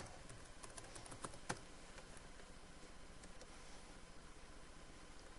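Quiet typing on a computer keyboard while registering on a web page: a run of quick, light key clicks over a steady hiss, with no talk.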